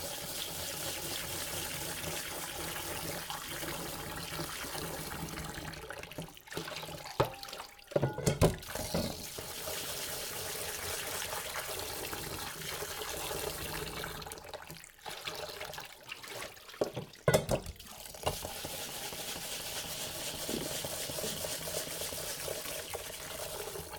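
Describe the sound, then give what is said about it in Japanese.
Faint, steady rushing of running tap water at a kitchen sink while ingredients are washed for sweet-bean red rice. A few brief clattering knocks interrupt the flow, and no one talks. “今無心で洗ってました”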